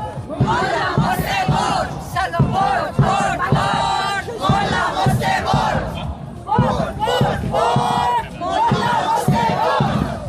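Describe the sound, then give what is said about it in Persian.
Iranian protesters march through central Malmö, chanting slogans against internet shutdowns, executions and state repression. Many voices shout loud, rhythmic chants in repeated bursts that continue without a break. “معترضان در راهپیمایی حدود یک ساعت در خیابان‌های مرکزی مالمو حرکت کردند و با شعارهایی علیه قطعی اینترنت، اعدام و سرکوب حکومتی تلاش کردند”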